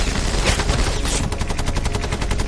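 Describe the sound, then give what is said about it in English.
A Bren light machine gun fires as the gunner sweeps a hedge line hiding German soldiers. The burst is loud and sustained, and its rapid, evenly spaced shots become especially distinct in the second half. No voices. “As the Bren stops, it is eerily quiet.”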